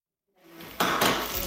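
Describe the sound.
Pans and cutlery clatter in a kitchen as a burger is cooked after work, with loud bright metallic knocks and scrapes starting after a brief silence and continuing steadily, with two sharper jumps in level.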